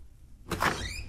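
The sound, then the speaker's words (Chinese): A door pushed open, heard as a single short sliding sweep that bursts in after a quiet moment and then tails off, fairly soft overall. “机要科长徐耀祖拿着一叠文件推门而入。”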